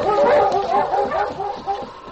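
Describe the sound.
Sled dogs bark and yip in harness as the team sets off along a broken trail through snowy forest, a steady run of high, yelping barks with no pauses.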